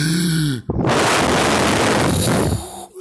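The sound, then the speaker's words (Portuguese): A storyteller imitates the big bad wolf blowing hard at the pigs' house: a short voiced sound, then one loud, sustained, breathy gust of about two seconds that cuts off sharply. “esse sopro foi o mais forte de todos. Mas a casa não caiu. Então novamente ele encheu o pulmão de ar e.”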